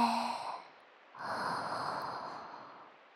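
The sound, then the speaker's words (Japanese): A slow, deep breath drawn in during a guided relaxation exercise, a soft airy rush lasting about two seconds after a brief voiced tone fades. It is quiet and heard alone. “ちょっと深呼吸しよっか。吸って”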